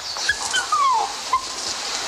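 A dog whimpers while it is being treated for fleas, giving a few thin, high-pitched whines, one of them longer and falling in pitch, over a steady background hiss.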